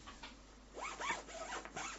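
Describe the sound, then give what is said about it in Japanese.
A zipper is drawn closed on a mesh laundry net bag packed with coats, making a few short, quiet rasping strokes in quick succession. “チャックを閉めたらもうこれで終わり。”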